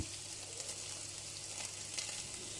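Food sizzles in a pan during cooking, a faint, steady frying hiss with a fine crackle that holds evenly for under three seconds. No voices are heard.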